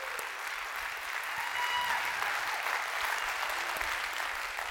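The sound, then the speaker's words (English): A church audience of a couple hundred people applauds during a service. Dense, steady clapping holds at an even level for nearly five seconds. “if you guys who are here, if you would you put your hands together? Welcome in our online audience.”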